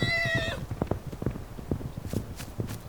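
An animal galloping away: a brief whinny at the start, then many quick, uneven hoofbeats thudding in a running rhythm, moderately loud throughout.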